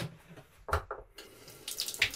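Water runs from a tap into a large sink on a boat, with uneven splashing gushes that swell and break off in short bursts, fairly loud with no voices.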